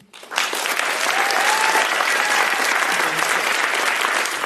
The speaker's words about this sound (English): So everybody, please put your hands together to welcome our panel.